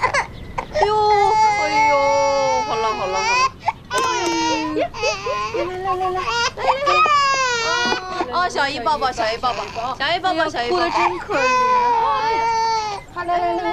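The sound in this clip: Loud, sustained wailing of an infant about a hundred days old, a rising and falling cry broken by brief gasps and whimpers, continuing almost without pause.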